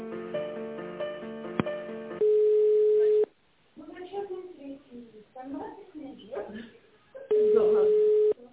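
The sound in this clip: A telephone line rings while a call is transferred: two steady, level tones, each about a second long, with people talking between them.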